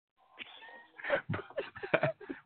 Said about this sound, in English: My cat has me pinned to the computer. He's sitting on my arm.